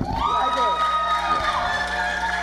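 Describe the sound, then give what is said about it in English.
A crowd cheers and whoops for the panel of judges at a beauty pageant, a loud, continuous wash of voices with some sharp high shouts, without a break from start to finish. “Please give it up for Leanne, Todd, and Maurice.”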